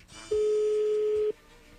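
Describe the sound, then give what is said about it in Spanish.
A telephone call coming in on the line gives one steady, sustained mid-pitched electronic tone lasting about a second, fairly clear above a faint hiss. “ya entró ahí la llamada”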